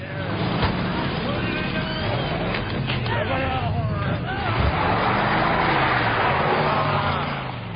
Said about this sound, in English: The hunter gets back in the pickup, which reverses and drives off.